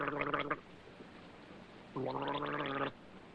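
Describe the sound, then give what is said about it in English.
Someone gargles in two bubbly bursts: a short one, then after a pause a longer one. Both are fairly faint. “What's that noise? Somebody's strangling. Sounds more like gargling. That's exactly what it is, and it's coming from my quarters.”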